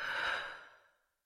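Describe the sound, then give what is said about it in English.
One deep breath comes as a long, soft, airy exhale that is strongest at first, then tapers away to silence after about a second. “Take a big breath in and breathe out. Take another breath in and out.”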